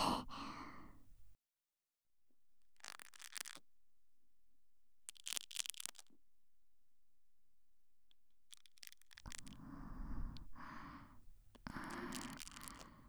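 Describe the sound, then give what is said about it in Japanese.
ASMR breathing close into the listener's ear: slow, soft, airy exhalations in a series separated by quiet gaps. Later breaths come fuller and closer together. “ゆっくり、まずはこっちの耳に耳呼吸を入れていきますね。”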